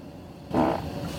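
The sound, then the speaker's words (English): A fart breaks in abruptly after a short quiet stretch: one loud, broad, rumbling burst that stays strong for a moment and then trails into a lower, sustained rasp to the end. “I'll turn the air down while I fart.”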